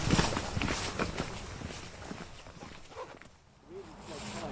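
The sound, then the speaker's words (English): A group of walkers' footsteps tread along a narrow path with slippery steps. Many irregular crunching steps overlap at a moderate level and ease off briefly before picking up again. “I'm walking with a group called the Old Lags, and they all used to work for the CEGB, which is the Central Electricity Generating Board.”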